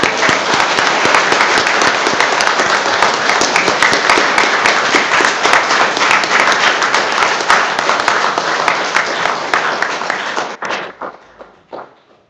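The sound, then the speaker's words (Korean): An audience's dense, loud applause celebrating Easter, a steady wash of many hands that holds for about ten seconds before thinning and dying away at the end. “예수님께서 부활하셨습니다 하고 다 같이 이렇게 예, 축하의 박수를 한번 보내도록 하겠습니다.”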